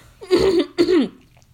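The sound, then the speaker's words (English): Throat clearing in two voiced, rasping bursts, the second a little shorter with a downward-sliding tone, followed by quiet. “You literally cleared your throat to say um um.”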